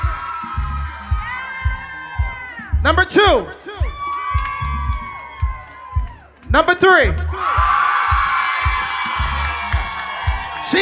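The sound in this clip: A crowd cheers and whoops for contestants in a first-place contest at a live DJ event. Loud bursts of shouting sit over a thumping bass beat, and a man announces placings between them before a long, sustained cheer.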